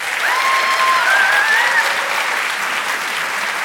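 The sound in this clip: An audience applauds to welcome an author, with dense, steady clapping throughout. A thin whistle rises above the clapping early on, and the applause stays loud from start to finish.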